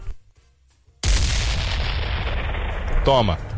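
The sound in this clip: Explosion sound effect: a sudden loud blast at about one second, then a sustained roaring rumble that holds steady to the end, with a brief tonal sound near the close.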